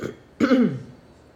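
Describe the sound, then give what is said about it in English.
A single throat clear, a short raspy burst of about half a second that follows a faint low murmur and then trails off. “excuse me. I'm like clearing my throat.”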